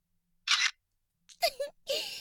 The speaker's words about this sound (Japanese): 撮るときは声かけてね。後でチェックして画像を送る。撮る？じゃあピース。